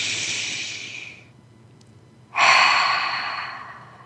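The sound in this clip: Deep breath during a guided breathing exercise: an airy exhale fades into a quiet pause, then a loud, breathy inhale begins abruptly and slowly tapers off.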